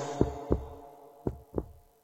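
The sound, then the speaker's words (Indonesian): A heartbeat sounds as two lub-dub pairs, four soft, low thumps in all. Each pair is evenly spaced, with a short pause between the two beats, and the thumps stand alone against a faint hum. “menyadari betapa pentingnya setiap detak jantung”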